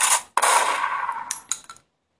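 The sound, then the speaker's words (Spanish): A gunshot sound effect: a sharp, noisy blast with a long hissing tail, then a few smaller clattering hits before it cuts off into silence. “¿Y ahora por qué me disparas”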